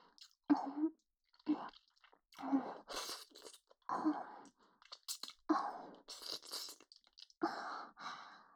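Soft, wet kissing sounds, many close smacking and squishing noises repeating at fairly regular intervals with quiet gaps between, with no voices.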